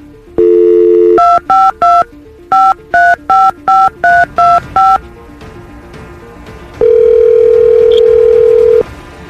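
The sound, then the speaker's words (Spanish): Touch-tone telephone dialing for a long-distance call: a brief steady tone, then a rapid run of sharp keypad beeps in two bursts, followed by a long, loud, steady ringing tone. “Ahí está, valedor, ahí está marcando.”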